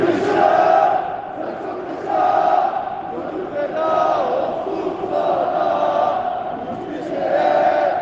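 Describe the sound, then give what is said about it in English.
Football stadium crowd chanting at a Beşiktaş match, a dense mass of voices rising and falling in steady rhythmic swells that stay loud throughout, with no separate talk. “enjoy the stadium sound”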